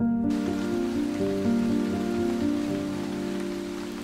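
Heavy rain pours down at night over a poor hamlet in the newly cleared U Minh region. It is a dense, steady hiss with a low sustained tonal drone beneath it, easing slightly toward the end.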